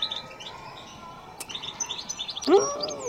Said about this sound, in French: Les chardonnerets que vous possédez, vous les avez eus comment ?